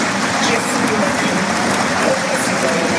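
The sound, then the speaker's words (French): A football stadium crowd gives a dense, continuous ovation of clapping and cheering for a player being substituted, with voices talking over the steady roar. “Ah oui, très belle ovation. Il la mérite.”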